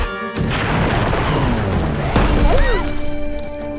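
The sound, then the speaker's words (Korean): A robot squirrel explodes in an animated cartoon: a loud, sustained crashing blast with a sharp burst near the middle and brief whistling tones toward the end. “폭발하는 로봇 다람쥐를 쏘다니.”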